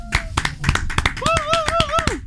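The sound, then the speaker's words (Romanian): Applause from the Zoo radio team in the studio after a song, many sharp claps in a quick uneven run, with a voice calling out over the clapping. “Astea sunt aplauzele sincere. Am pornit microfoanele doar ca să auziți reacțiile echipei de la Zoo în fața artei.”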